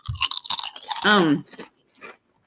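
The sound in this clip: Crunchy chewing of a barbecue-flavored snack from a can: quick, dry crunch bursts with a brief voiced murmur in the middle, then quieter chewing that fades out.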